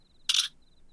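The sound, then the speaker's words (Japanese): A camera shutter fires once to take a photo, a single sharp crisp click. Faint, intermittent high electronic beeps sound before and after it. “ねえ、私の写真撮って。はい、ピース。”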